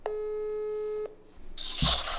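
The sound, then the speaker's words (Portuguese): Ringing tone of an outgoing telephone call: one steady tone holds for about a second, then stops. A burst of line noise follows. “Vamos ligar para ele aqui então.”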